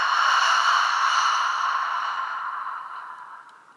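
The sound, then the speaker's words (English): A deep breath through the nose comes through as one long, breathy exhale that starts strong and slowly fades away, alone with no talk. “Take a big breath in through your nose and a big exhale out.”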